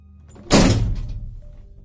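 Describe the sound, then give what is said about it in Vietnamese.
A single heavy thud of a head striking a door frame: one loud, dull knock that rings briefly and decays over about a second, with no voices. “Và ông Thịnh cũng đã biết tiếng động kia phát ra từ đâu rồi. Đây chính là do Trúc dùng đầu của mình mà đập vào thành cửa.”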